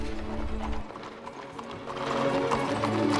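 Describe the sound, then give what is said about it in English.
Hooves of two black horses clip-clopping as they pull a carriage, a steady run of many hoofbeats at a brisk walking pace, growing somewhat louder toward the end. “Next, a carriage pulled by two black horses.”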